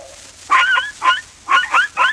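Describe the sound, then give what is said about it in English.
A little toy dog gives five short, high-pitched yipping barks in quick uneven bursts over a faint low hum. “This little dog for Tommy Tinker.”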